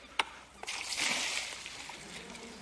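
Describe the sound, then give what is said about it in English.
Water floods over a model house as a flood is simulated. A sudden splash leads into a rushing pour that swells and then tapers off, with a few small knocks at the start. “but when the flood comes, the whole house gets washed away, even down to the foundations. So let's create a flood and see what happens.”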